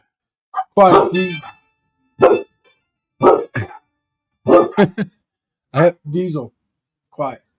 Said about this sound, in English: And I apologize for the dogs.